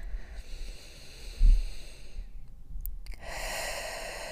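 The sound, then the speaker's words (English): A deep breath taken during a guided relaxation exercise: a drawn-out, fairly quiet breathy hiss with a brief low puff partway through, and no talking. “So I would invite you to take a nice big deep breath with me right now.”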